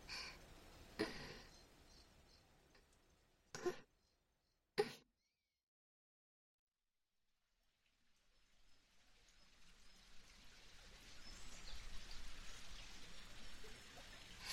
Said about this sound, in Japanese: はい、近くに小川が流れるロケーションにしてみました。